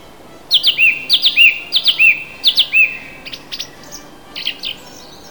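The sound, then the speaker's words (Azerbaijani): A sparrow chirps in a rapid series of many sharp, high-pitched notes grouped in quick clusters, loud at first and growing sparser and fainter toward the end, with no other sounds. “Deyə Sərçə cikkildəyə uçub getdi.”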